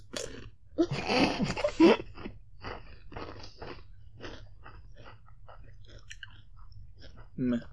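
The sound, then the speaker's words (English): Crunchy chewing of Takis chips eaten with Nutella, a loud cluster of bites early on, then softer chewing as people talk. “All I taste is the Nutella. Yeah, I don't taste them together. I taste separate. Nutella and Takis separate.”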